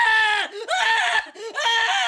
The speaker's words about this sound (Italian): lo strillofono prese a strillare di nuovo.